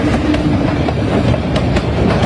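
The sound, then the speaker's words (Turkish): Steady, loud rolling rumble of a fast train on a railway line in India, with faint rhythmic clacking of wheels over rails running throughout. “Yaklaşmakta olan treni fark etmeyen inek kiraylara girdi. Son sürat gelen tren tüm hızıyla ineğe arkadan çarptı.”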